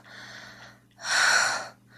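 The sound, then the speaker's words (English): A woman gasping: a soft, breathy exhale, then a louder, sharper rush of breath lasting under a second, trailing into a faint breath. “Hearing me moan and gasp?”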